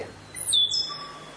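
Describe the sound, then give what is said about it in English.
A stitchbird calls with a few short, high, thin whistled notes, fairly faint over a low steady hum, with no talk. “The stitch bird.”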